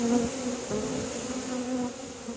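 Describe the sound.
Bees buzzing in a steady, low droning hum that wavers slightly but holds throughout, fairly quiet and with no voices.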